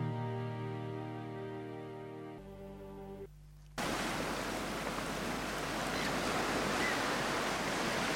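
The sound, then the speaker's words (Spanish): Sea waves and wind: after a stretch of sustained low tones fades away, a dense, even wash of surf and rushing wind sets in and continues loudly to the end. “Se oye el mar. Se oye el mar, el susurro del viento.”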